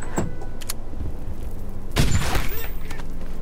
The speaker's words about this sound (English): I threw in a freaking pipe bomb. It came from this side.